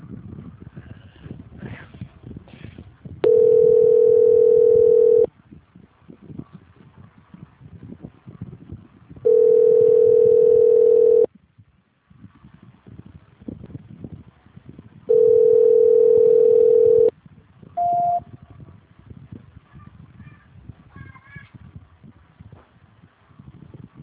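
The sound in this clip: A telephone line tone plays while a call is being transferred: three long, steady, mid-pitched tones of about two seconds each, separated by gaps of background noise, with a short, higher beep after the third.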